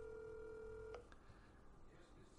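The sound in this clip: A telephone ringback tone sounds on an unanswered call. A single steady, mid-pitched tone holds for just under a second, then cuts off and leaves faint background noise.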